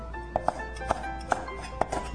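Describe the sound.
A knife chops food on a cutting board: a few sharp, irregularly spaced knocks, fairly quiet, over a steady low hum.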